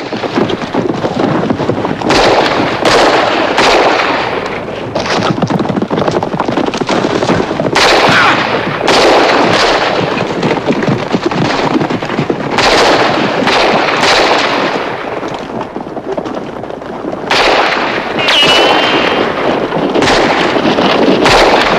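Gunfire in a shootout between bandits and defenders around a cantina: many loud, irregular shots and rapid bursts crack over a steady roar of wind noise.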